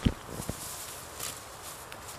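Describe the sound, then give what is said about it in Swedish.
Footsteps push through shoulder-high tall grass in a cow pasture, a few soft steps with a dry rustle of stalks brushing past, fairly faint throughout. “Jag ska ta mig fram här i det höga gräset som sträcker sig över axeln här.”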